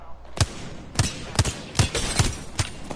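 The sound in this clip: Video game gunfire rings out as six sharp shots at irregular intervals. Each is a short, punchy crack with a low thump, fairly faint against a soft, noisy background.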